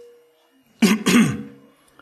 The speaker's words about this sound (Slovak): A po chvíli trapného mlčania kazateľ si odkašle a povie,